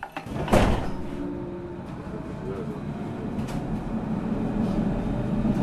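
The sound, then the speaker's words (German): A crowded Berlin S-Bahn commuter train rumbles along in a steady, low, continuous drone, with a sharp knock near the start. “Eine volle S-Bahn in Berlin.”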